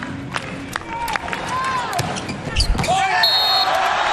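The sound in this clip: A volleyball serve struck by a substitute server for Bulgaria during a match, a quick slap of the ball heard under a commentator's voice and steady crowd noise.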